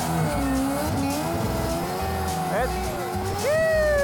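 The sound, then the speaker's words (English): A car makes a handbrake entry into donuts, its engine revving in rising and falling pitch and its tires squealing, while a man talks over it. “we'll just come in, little handbrake entry, do some donuts. A little bit of gas. Straight into it. Little handbrake, that's it.”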